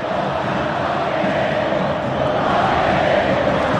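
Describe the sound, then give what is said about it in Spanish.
Football fans of Instituto singing a chant in the Kempes stadium during a match against Boca, a dense, continuous roar of many voices that swells slightly in the second half. “Canta el público de Instituto una canción de las mejores del fútbol argentino. Que se escuchan por el público para toda la cadena nacional.”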